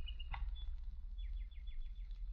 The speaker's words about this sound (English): I found this toy. A walking, chirping bird. You see, it's still good.